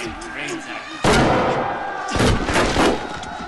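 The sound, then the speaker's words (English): Gunfire riddles a door with bullets. A voice comes first, then a sudden loud burst of shots hits at about one second, and a second, heavier volley of impacts follows shortly after. “Go! The door is filled with bullets.”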